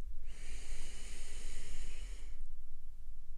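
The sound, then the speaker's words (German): One long, deep breath in is drawn during a guided breathing meditation, a soft airy hiss lasting about two seconds before it fades into quiet. “Nimm nochmal einen tiefen Atemzug ein”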